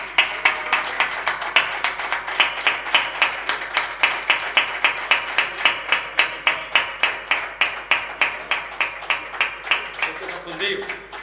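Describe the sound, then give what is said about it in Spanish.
An audience claps together in a steady rhythmic beat, giving a loud, sustained round of applause. The crisp claps land evenly throughout and keep going to the end. “pues que le vamos a dar un fuerte aplauso”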